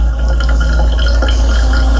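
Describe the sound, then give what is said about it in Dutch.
Coffee running through a coffee maker, a continuous gurgling, bubbling trickle of water over a loud, steady low hum, alone and unchanging throughout. “Een doorlopen van koffie.”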